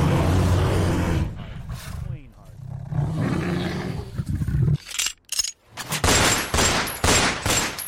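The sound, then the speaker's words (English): Gunfire bursts out as a rapid fusillade of loud, sharp shots, crowding the latter half over a rough, roaring background din. “Oh my God, they're shooting at us!”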